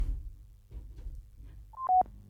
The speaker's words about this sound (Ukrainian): О, маємо дзвінок.